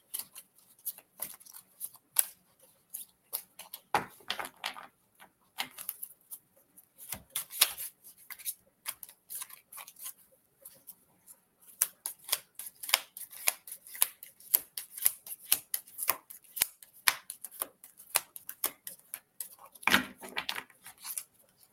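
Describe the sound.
Stiff playing cards are shuffled again and again, giving many quiet, crisp snaps and short riffling bursts in an irregular rhythm, with no talking.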